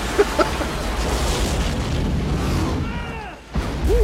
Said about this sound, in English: He's running from the explosion he's in?